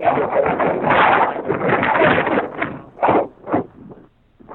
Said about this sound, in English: I hear you good, but sometimes the wind comes in, you know, here and there.